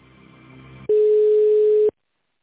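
A telephone line tone sounds as a call is put through to an extension. A fainter tonal sound gives way to one loud, steady, pitched tone that holds for about a second and then cuts off.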